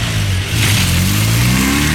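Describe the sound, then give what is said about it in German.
A car engine revs hard as the driver steps on the gas. The loud, throaty roar climbs slightly in pitch after a brief dip and then holds steady with no voices. “Jetzt einsteigen und Gas geben.”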